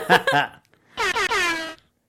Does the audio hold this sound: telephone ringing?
no